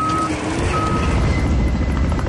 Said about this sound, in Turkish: Kısa süre sonra çalışmalara havadan da destek verildi. Helikopterler sık sık sortu yaptı.